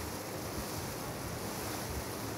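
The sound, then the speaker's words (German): Wind and waves on a ferry crossing the Kiel fjord from the east shore to the west, a continuous broad rush of wind and water noise with no distinct separate events and no voices. “Die Fähre ist unterwegs vom Ost- zum Westufer.”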